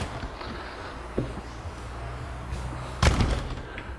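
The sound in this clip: A door being closed during a lecture: a faint click, then a single firm thud near the end over a low, steady background hiss.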